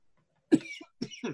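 Coughing from someone whose water went down the wrong way: two short, faint coughing bursts a half second apart, the second breaking into a double hack.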